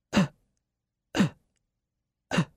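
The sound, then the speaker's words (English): Three short, sharp gasps for air, voiced as a demonstration of desperate struggling breath, each a rough noisy burst about a second apart with silence between. “So you have to fight and gasp for even the tiniest bit of oxygen. And maybe only an asthma patient or a fireman can relate to this. But this is how you breathe in hell. I just have to demonstrate it.”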